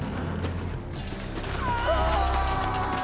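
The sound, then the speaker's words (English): A horse whinnies as Viking warriors on horseback gather on a grassy slope. A wavering, high neigh rises out of dense, rumbling background noise in the second half. “Brown-bearded Vikings on horses gather on a grassy slope.”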